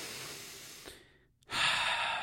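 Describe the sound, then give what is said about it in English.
Deep human breathing, alone: one long, soft breath trails away into a short pause, then a stronger, louder breath follows. “Let me just breathe for a second.”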